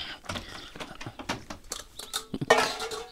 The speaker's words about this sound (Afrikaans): En ouma is besig om mengbakke uit die kas te haal.